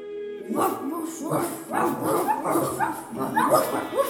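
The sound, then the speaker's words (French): Barking of a giant, fierce, twenty-five-headed dog: many loud, rough barks and yelps in an irregular, rapid series that fills the whole stretch. “Quand le roi Ethan s'en aperçut, il lui envoya son chien. C'était un chien géant et féroce.”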